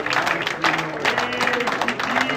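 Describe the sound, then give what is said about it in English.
Church audience clapping their hands during a worship service, a lively patter of many hands in uneven bursts, with voices speaking over it. “Why don't you just go ahead and just give God a hand clap right now.”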